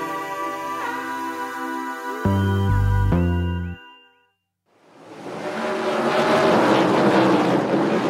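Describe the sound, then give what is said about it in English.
Race cars zoom around a racetrack in Sonoma, California, with whining engine harmonics that bend in pitch and chiming tones, then a brief silence before a broad engine roar swells and stays loud. “That's the sound of cars zooming around a racetrack in Sonoma, California last year.”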